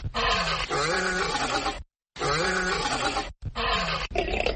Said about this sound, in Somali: markii uu ku dhuftay cida libaaxu caanka ku yahay waxaan in badan daymooday xaggayga dambe